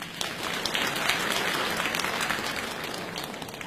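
Applause from an audience welcoming contestants at a crosstalk and comedy sketch competition. Dense, steady clapping fills all of it at an even loudness with no pauses.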